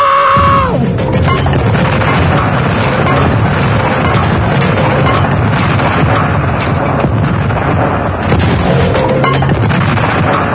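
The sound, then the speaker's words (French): A bomb explodes in a booby-trapped house, a loud, sustained roar of blast and debris that fills the whole clip without a break. “la maison est piégée, c'est une bombe. Une quoi? Une bombe.”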